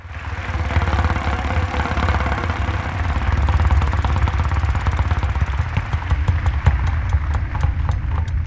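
A game show prize wheel spins, making a fast, rattling stream of clicks over a low hum; the clicks grow more spaced out toward the end.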